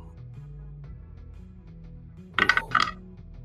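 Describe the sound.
Dice rolling on a table during a tabletop role-playing game: after a quiet stretch, a quick clattering burst of hard clicks comes in two short clusters, fairly loud and bright.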